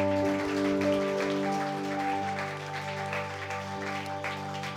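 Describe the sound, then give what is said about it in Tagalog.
Applause from a church audience: a dense, steady patter of clapping over low sustained tones. It holds fairly even and eases slightly toward the end. “So pwede ba nating palakpakan ng Panginoon?”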